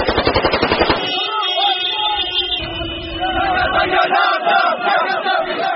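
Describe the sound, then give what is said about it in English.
Libyan rebels chant and fire automatic rifles into the air after capturing a strategic town. Rapid bursts of gunfire crack at the start, then loud, massed chanting voices carry on steadily to the end. “Libyan rebels chanted and fired their automatic rifles into the air after capturing the strategic town of Ajdabiya”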